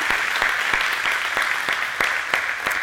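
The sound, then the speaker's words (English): Applause from a church audience during a service, a steady dense patter of many hands clapping that carries evenly throughout, with a few sharper claps standing out. “put your hands together. Let's welcome everyone watching online for this service.”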